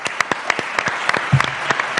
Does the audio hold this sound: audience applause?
yes